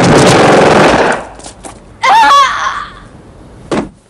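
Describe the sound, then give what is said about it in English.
Gunshots crack out in a loud burst of rapid gunfire at the start, then after a quieter stretch a single sharp shot rings out near the end. “Fake White shoots at him. Karen claws Fake White's face and runs. He shoots her in the back.”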